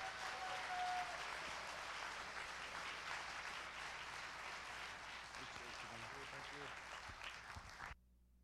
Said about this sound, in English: But what I would love is if you'd put your hands together and welcome our guest speaker for today, Aaron Freeman.